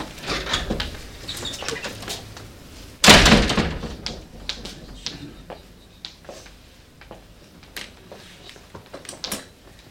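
A door bangs as an actor runs out through it during a theatre festival performance: one loud slam amid scattered light quick taps and steps, with softer knocks afterward.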